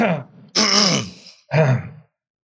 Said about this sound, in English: Let's leave everyone clear their throats. We're not leaving that in. No, everyone clear their throats.